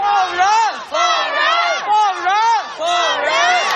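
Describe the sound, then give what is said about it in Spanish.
Protesters in China chant in unison, repeating the same short phrase in a steady rhythm. The voices are loud and clear, and each call swells and falls in pitch. “Este es el sonido de las protestas en China. Hace mucho, mucho tiempo que no se oían protestas en China.”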